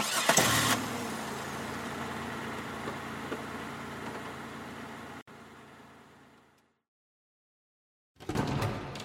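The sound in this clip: A car engine starts with a loud burst, then settles into a steady mid-pitched running hum for several seconds before cutting out. After a brief silence, a short, loud noise follows.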